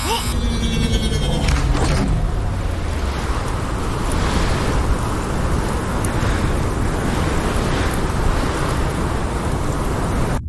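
Storm wind and waves roar as one dense, unbroken wash of noise at a steady loud level throughout, with some brief tonal streaks at the very start.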